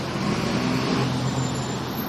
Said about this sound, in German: der Bus kommt!